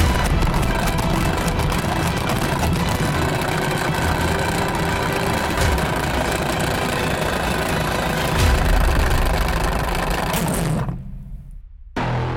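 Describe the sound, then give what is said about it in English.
An electric salad spinner whirs steadily after its button is pressed, a loud, even motor drone with a rattling hiss. It cuts off near the end, leaving near silence before a brief burst of sound returns. “Why don't you take a turn this time to spin the salad spinner? All right. How do I spin it? Just press the button.”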